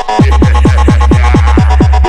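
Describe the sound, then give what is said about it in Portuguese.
Heavy bass thumps from the sound system of a Volkswagen Saveiro pickup: loud, booming pulses repeat at a steady, quick rhythm, each one swooping down in pitch and leaving a deep rumble underneath. “O grave tá bem forte, tá bem forte. O grave tá bem forte, tá bem forte.”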